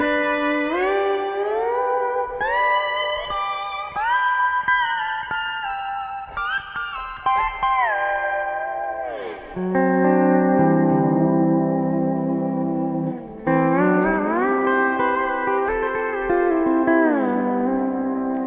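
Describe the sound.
Electric guitar through a Twin amp with wet pedal reverb plays sustained chords and ringing notes that wash into each other. It is steady and fairly loud, with a few clear chord changes and no talking.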